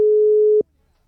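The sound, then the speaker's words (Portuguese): A telephone call tone sounds while someone is being called: one steady, unbroken mid-pitched beep lasting just over half a second, loud and alone, then cut off into silence. “Vou ligar pro Davi.”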